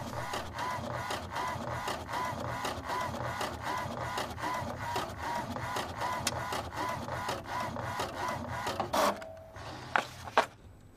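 A printer printing a photo produces a steady, rhythmic mechanical whirr with evenly repeated pulses for about nine seconds, then stops and gives a few sharp clicks.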